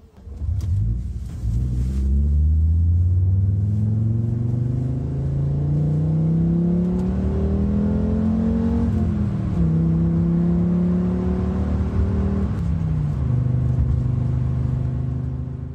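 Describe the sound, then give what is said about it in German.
Audi Cabriolet with its original 2.3-litre five-cylinder engine revving hard, the loud engine note climbing steadily in pitch, dropping briefly as it changes gear, then climbing again before settling lower at the end, with no voices. “So, und wie das Audi Cabrio klingt in seiner Urversion mit dem 2,3 Liter Fünfzylinder, das hören wir uns jetzt kurz mal an, bevor es hier mit Werner Wilhelm weitergeht.”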